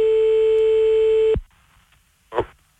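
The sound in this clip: A telephone tone sounds after the other side hangs up on a call. It is a loud, steady single-pitch tone that holds for over a second, cuts off abruptly, and is followed by a brief noisy burst.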